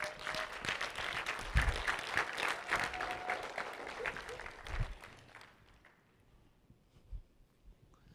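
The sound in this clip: Applause from an audience welcoming speakers to the stage: dense, sustained clapping that fades out after about five seconds, leaving near quiet with a couple of faint thumps.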